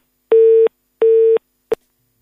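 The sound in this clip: Phone line cut-off tone after a caller's prepaid credit ran out: two loud, steady beeps of equal length, then a third clipped short, with no talk.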